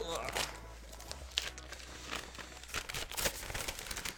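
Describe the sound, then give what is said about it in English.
Paper crinkling and tearing as an envelope holding CDs and a workbook is ripped open. Faint, scattered rustles and crackles run for about four seconds. “Okay, I've got the envelope here. Let's wrap it open.”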